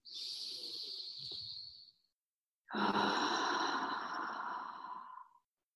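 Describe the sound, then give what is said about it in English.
A deep breath drawn in and let out during a guided breathing exercise: a long, airy inhale, a short pause, then a longer and louder exhale. No one speaks. “Deep breath in.”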